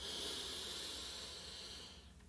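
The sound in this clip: A slow, deep inhale during a guided relaxation breathing exercise: a soft, steady airy hiss that holds for about two seconds, then trails off. It is faint and heard alone.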